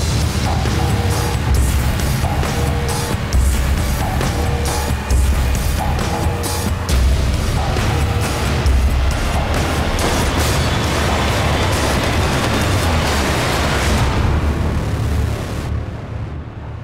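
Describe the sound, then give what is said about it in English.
Action sound effects from the trailer for the film Sabotage, starring Arnold Schwarzenegger, form a dense, loud wall of rumbling, booming and mechanical crashes. The roar stays forceful throughout and thins out only in the final seconds. “That was the trailer for Sabotage. My rewatch pick, 80s related, because of course it stars Arnold Schwarzenegger.”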